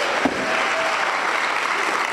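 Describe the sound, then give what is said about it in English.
Audience applause at a university debate as a speaker is introduced: a steady wash of clapping from many hands, loud and even, with no clear break. “So if everyone can give another round of applause for Peter Williams.”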